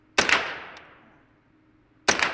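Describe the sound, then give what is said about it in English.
Two sharp, loud shots from a light, roughly six-pound assault rifle fired at a paper target 25 yards away. Each crack has a long fading tail, and the shots are about two seconds apart. “Now, I expected this moment of firing an assault rifle to feel huge, but somehow it doesn't. The gun gives a bit of a kick, but not much.”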